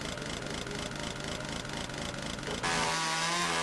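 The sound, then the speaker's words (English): An engine-driven tool trims sticks off tree branches with a steady mechanical buzz that runs alone, then jumps to a louder, higher whine near the end. “I'm trimming some of the sticks off these branches here.”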